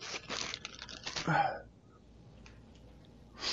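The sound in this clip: A pack of trading cards is torn open: a burst of ripping and crinkling lasts about a second and a half, then fades to quiet with a few faint rustles and a final short noise.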